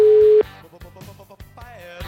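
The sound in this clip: A telephone tone while calling someone: one steady, fairly loud beep lasting under half a second, followed by quieter tonal, music-like sounds.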